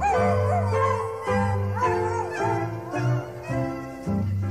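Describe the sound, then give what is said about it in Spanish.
A dog with an aching tooth howls in a few wavering, mournful cries that rise and fall over steady musical accompaniment. “Al perrito le duele una muela.”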